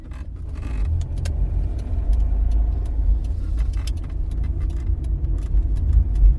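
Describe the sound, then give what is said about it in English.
A car drives along a road leading to a small village, giving a steady low engine and tyre rumble throughout. Scattered light ticks and clicks sit over the rumble, and no one speaks. “We hit the road, but instead of following what the map tells us is the main route, we turn the other direction and start driving down the road to Diabaig.”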